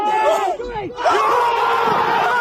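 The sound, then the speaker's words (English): A crowd watching a golf putt for a cash prize erupts in loud cheering, with individual voices yelling and whooping over the roar, dipping briefly before surging again. “What a moment! The crowd went wild!”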